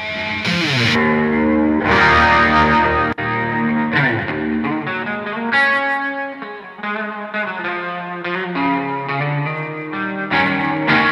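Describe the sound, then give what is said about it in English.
An electric guitar plays through an Iridium amp modeler pedal with built-in reverb, giving a thick, distorted tone. Sustained chords and ringing notes change steadily without a break, and no voice is heard. “recently I picked up a few in this Iridium pedal, which is basically like, you know, an amp mod that you keep on your pedal board.”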